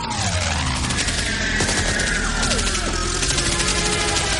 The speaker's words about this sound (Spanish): dispara de lado a lado y destroza el timón de cola de la avioneta que da un bandazo